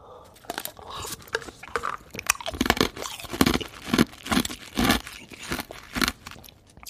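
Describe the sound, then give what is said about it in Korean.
Ice chewed and crunched, many sharp crunching bursts in an uneven rhythm throughout, loud and close with no talk. “그 얼음 씹어 먹는 소리 예, 들릴 텐데 나왔나요?”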